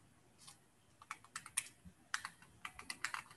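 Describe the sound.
Computer keyboard keys pressed to advance presentation slides in place of a failed clicker, many quiet, crisp clicks tapped in an irregular rhythm, with no talking over them.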